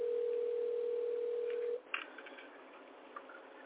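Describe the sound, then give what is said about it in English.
A telephone line dialing a caller: a steady low dial tone cuts off abruptly, followed by a few faint clicks over quiet line hiss. “So let me just dial him up.”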